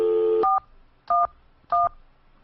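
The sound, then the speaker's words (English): Telephone keypad tones dial 411: a steady dial tone cut off by three short two-note beeps, evenly spaced and equally loud. “I wonder what will happen if we dial 411.”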